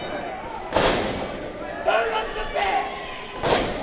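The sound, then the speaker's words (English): Heavy thuds of bodies slamming onto the ring at a pro wrestling event in Minnesota, a few sharp impacts spaced apart over crowd noise, with a voice shouting. “Here in Minnesota, pro wrestling sounds like this.”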